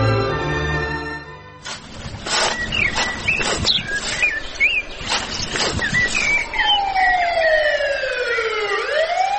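A police car siren passing through a village: a loud warbling wail with a few sharp knocks mixed in, then long sweeping tones that slide downward in pitch as it goes by.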